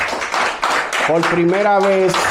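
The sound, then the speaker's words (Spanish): Hand clapping for someone at a religious gathering, in a quick, regular rhythm of sharp claps, with a voice sounding over the middle stretch. “Así que un aplauso para Abby.”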